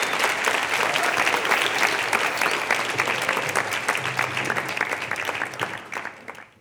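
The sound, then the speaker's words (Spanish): Audience applause for a conductor at a symphonic concert: dense, continuous clapping from a crowd, steady and fairly loud throughout, thinning slightly toward the end. “Un aplauso, por favor, para él.”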